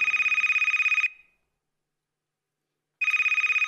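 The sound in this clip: An electronic telephone rings for an incoming caller: a rapid trilling burst about a second long, a pause of roughly two seconds, then a second trill begins.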